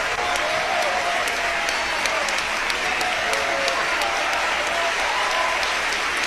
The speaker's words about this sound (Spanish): Le comento que hay gente de pie aplaudiendo a la Sinfónica de Jalapa como un reconocimiento a su excelente desempeño musical.